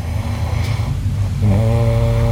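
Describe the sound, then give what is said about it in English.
Loud snoring from a person, a low, rough, rattling rumble that continues throughout and shifts into a steadier buzzing drone in the second half. “you sure this is a snore?”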